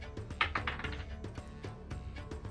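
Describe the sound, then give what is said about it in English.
Dice clatter during a tabletop role-playing game session as a player rolls for a perception check: a few faint, quick clicking taps with short gaps between them, heard alone. “Using my tripper dice. Here we go.”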